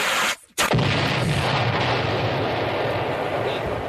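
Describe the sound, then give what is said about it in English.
An egg explodes with a sudden loud burst that has a sharp onset, followed by a continuing roar of broad, rushing noise. “The Kansas City Chiefs egg exploded.”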